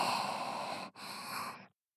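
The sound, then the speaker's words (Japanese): Deep breathing, in and out, comes as two long, airy, breathy rushes of even loudness separated by a brief pause, followed by silence, with no speech. “ちょっと一緒に深呼吸しよう。ほら、吸って吐いて。”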